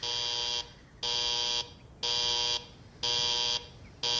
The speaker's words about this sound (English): wake up and turn off the alarm!